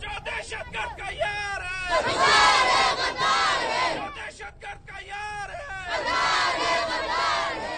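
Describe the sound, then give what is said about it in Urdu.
Children chanting slogans against terrorism at a rally in Quetta, Pakistan: loud bursts of many young voices shouting together in repeated rhythmic phrases, separated by brief dips, over a background of crowd babble. “اس دوران کوئٹہ کے بچوں نے دہشت گردی کے خلاف نعرے بلند کیے۔”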